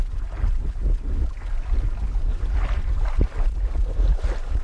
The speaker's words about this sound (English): That's a sound of water lapping at the side of a sailboat along the Charles River.